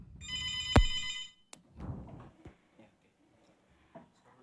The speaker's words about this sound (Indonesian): Baik, sudah ada penelpon masuk nih.